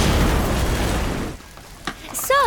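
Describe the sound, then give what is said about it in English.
Grenade explosion in a video game: a loud, dense roaring blast that holds for over a second before dropping away, then a short crack and a bright sweeping synthetic tone near the end. “I've got grenades bigger than your ego. Want to see them work? Too late.”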